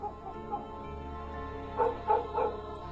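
Dogs bark in the distance at a market: a few short barks come close together near the end over a steady low background hum.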